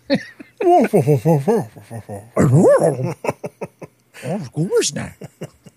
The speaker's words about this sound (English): Oh, that was a Great Dane.